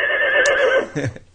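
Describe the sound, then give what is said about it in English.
A horse whinnies loudly in one long, wavering neigh that shakes up and down in pitch, followed by a few short, rough snorting bursts as the sound trails off. “That's a horse.”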